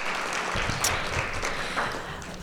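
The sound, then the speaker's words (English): A round of applause from the audience at a human rights forum: a busy patter of many hands clapping at moderate volume, fairly even with slight surges, and no speech over it. “let's just give a round of applause to Marilyn.”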